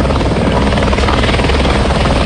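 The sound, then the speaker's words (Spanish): Steady, loud rotor roar of a police aviation water-tanker helicopter fighting a wildfire on the slopes of Cotacachi, refilling at Lake San Pablo. The thick, unbroken thrum holds even throughout with no voices. “se unió un helicóptero cisterna de Quito, de Aeropolicial, que se abastece del lago San Pablo y arroja agua en las faldas del Cotacachi”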